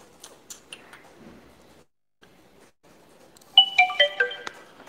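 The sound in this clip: A ringtone sounds from a Chinese-made mobile phone as a quick burst of bright electronic beeps lasting about a second near the end. Only faint scattered noises come before it.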